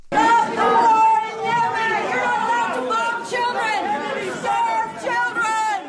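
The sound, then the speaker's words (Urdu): Women protesters chant slogans against Saudi bombing in Yemen at a Saudi cultural art exhibition at the Kennedy Center in Washington. Several loud voices rise in repeated bursts over crowd noise. “یہ نعرے بازی Washington کے معروف Kennedy centre میں منعقدہ ایک ثقافتی نمائش میں کی جا رہی ہے”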